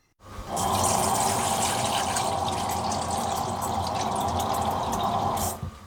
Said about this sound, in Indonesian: Masukkan air dingin ke dalam mangkuk yang besar.